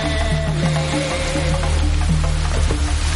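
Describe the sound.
Rain falls steadily over a cemetery, a continuous, loud hiss of drops that holds evenly through the whole stretch.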